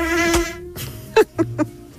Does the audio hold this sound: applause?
no